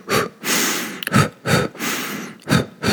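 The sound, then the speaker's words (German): Heavy breathing of a runner, drawn in and pushed out in a steady rhythm. Short sharp breaths alternate with longer, rushing exhales, loud and with no voice over them. “Deswegen einatmen, ausatmen.”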